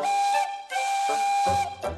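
Steam locomotive whistle of an emerald green engine that pulls passenger coaches or freight: several loud, steady-pitched blasts in quick succession, each with a breathy, hissing edge.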